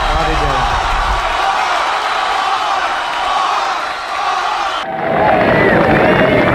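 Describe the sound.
Audience applause and cheering greet a performer being introduced, a dense, steady roar of clapping and shouts that shifts in tone near the end.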